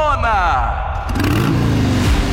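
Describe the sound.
A motorcycle engine revs loudly as the bike goes by, a brand-new motorcycle offered as a prize. The engine roars steadily throughout with shifting pitch.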